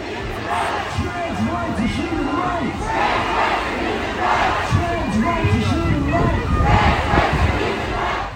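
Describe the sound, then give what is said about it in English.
Counter-protesters from Kingston's 2SLGBTQIA+ community and allies chant loudly in Confederation Park across from City Hall, their massed voices rising in repeated rhythmic surges that stay strong throughout. “Kingston's 2SLGBTQIA+ community and allies responded with a counter-protest, gathering directly across the street in Confederation Park. They responded by amplifying their message loud and clear.”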